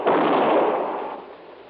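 A gunshot fired inside a warehouse during a shootout, one loud, heavy blast that hits at once and then fades away over about a second.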